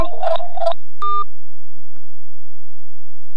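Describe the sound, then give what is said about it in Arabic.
A telephone line tone after a caller's connection to a radio phone-in drops: brief warbling electronic tones, then one short buzzing beep, then near silence. “نعم انقطع الاتصال”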